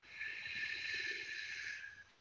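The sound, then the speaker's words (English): One slow inhalation during a guided prayerful breathing exercise, a soft airy hiss that swells and holds for about two seconds, faint and heard alone. “So we breathe in,”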